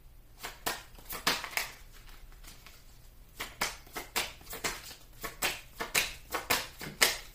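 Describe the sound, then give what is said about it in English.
Tarot cards being drawn and handled: many soft slaps, flicks and papery clicks in an uneven rhythm, quiet and close, with a short lull partway through. “I want to take some more cards.”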